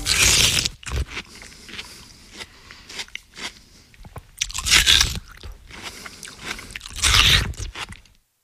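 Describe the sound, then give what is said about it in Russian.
Someone biting and chewing watermelon: a few loud, wet crunches separated by quieter stretches of munching and soft squishy chewing, with no speech. “Ну, это, скорее всего, кто-то ест, наверное. Арбуз. Да, так и есть. Ест арбуз.”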